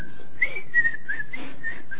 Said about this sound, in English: Start to whistle and talk at the same time.